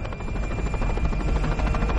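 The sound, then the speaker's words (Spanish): A helicopter flying over a forest gives a loud, steady rotor-and-engine drone with a deep rumble underneath, holding constant without any speech. “El helicóptero sobrevuela el bosque.”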